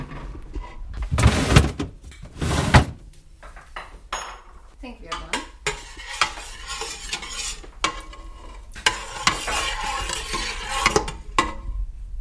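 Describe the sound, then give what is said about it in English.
Metal spoon clanking and scraping in a pot as lemon juice is stirred into cooked chana dal with ghee; a few loud clinks early on, then steady stirring scrapes and taps continue throughout. “And then adding a bit of the lemon juice.”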